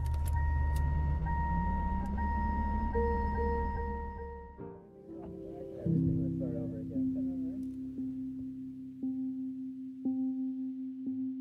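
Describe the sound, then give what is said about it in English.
A car's ignition and engine starting, closing out an album: a low engine rumble with a rising whine. It then gives way to sustained, ringing musical tones. “that's the ignition sound that ends the album”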